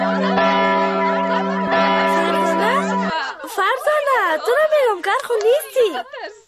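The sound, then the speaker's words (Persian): A school bell rings in a steady, harmonic tone for about three seconds and then stops, after which a voice talks. “خیلی چرا زنگ مکتب نشنیدی؟ کل دخترها بر آمدن، بیا که تفریح کنیم.”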